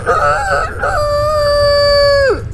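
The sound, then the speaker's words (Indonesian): A rooster crows once in a long, loud call: a wavering, broken opening settles into a steady, high, held note that drops sharply in pitch at the end. “Ceritanya ada ayam yang berkokok membangunkan semua binatang-binatang.”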